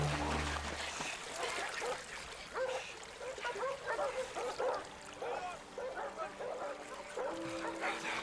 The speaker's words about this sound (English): Just keep the dogs away from us.